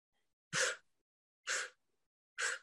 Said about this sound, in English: either the short, sharp breath through the nose, because anytime you do a short, sharp breath, it's forcing your airway open.